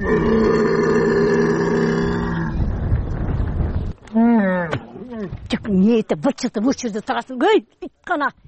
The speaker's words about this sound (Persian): این شتر از گرسنگی مینالد و التجا میکند که خوراک دهم، ولی از کجا گیرم؟